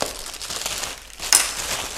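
Plastic packaging crinkles and rustles as a new loaf of bread is taken out, moderately loud throughout, with a sharper crackling burst partway through.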